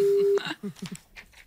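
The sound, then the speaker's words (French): A telephone ringback tone during an outgoing call: one steady, low-pitched tone lasting about a third of a second that cuts off abruptly, followed by a voice speaking. “Attention, ça sonne. Nous appelons le syndic bénévole.”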